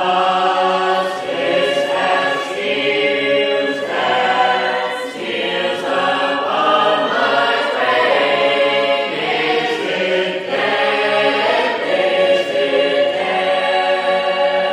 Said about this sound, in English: What you're hearing right now is the ongoing life of a choral tradition called Sacred Harp Music, shape note singing.